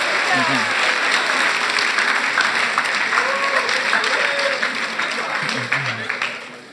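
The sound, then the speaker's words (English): Audience applause with a few voices mixed in: dense, steady clapping that keeps up at full strength for several seconds, then fades away at the very end. “You guys, can you give them a hand?”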